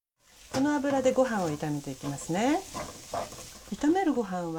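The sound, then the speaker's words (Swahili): A spoonful of cooking oil sizzles at the edge of a pot of mixed ingredients, a steady hissing crackle that carries under wavering, voice-like sounds throughout. “Viambato vikisha changanyikana pamoja, ongeza kijiko kimoja kikubwa cha mafuta ya kupikia pembeni mwa sufuria.”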